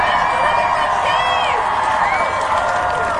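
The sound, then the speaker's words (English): An audience at an evening event applauding and cheering: a loud, sustained roar of clapping and shouts, with high whoops rising over it throughout. “Can you guys give her the biggest round of applause you can give to anyone tonight?”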